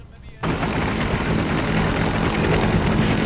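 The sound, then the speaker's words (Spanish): A helicopter with bent rotor blades, one of them missing, flies with a loud, steady mechanical roar. The roar starts abruptly after a brief quieter moment and holds level to the end. “Anda, tiene un poco las aletas torcidas el helicóptero este. Sí. Tiene las hélices, en realidad. Hay una que está, le falta una y la otra está torcida.”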